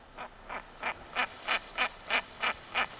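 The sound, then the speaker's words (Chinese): Female bird call: a series of nine short, evenly spaced bursts that rise steadily in loudness, each a bright, raspy quack-like note, alone with no talk. “那我们再听另外一款雌鸟的叫声，我们来感觉一下。”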